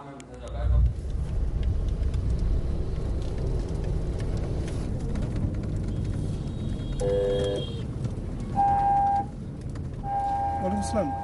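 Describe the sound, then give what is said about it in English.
Steady low road rumble of a car driving past a refugee camp, constant throughout, with voices heard over it. “On the way to today's World Refugee Celebration at the world's largest refugee camp, Mohammed Kalam drives by the registered camp.”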